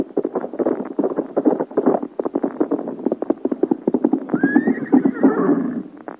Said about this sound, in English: it's a giant on horseback, and riding as if the devil and all his hordes went after him. Look how he rides with the sparks rising from the road behind him.